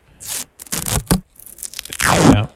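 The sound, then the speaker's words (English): Strip of duct tape being torn off, heard as several loud, rough ripping bursts with scraping crackle. The rips come in an uneven rhythm with short gaps, and the last one is the longest and strongest. “I need a slice of duct tape right now.”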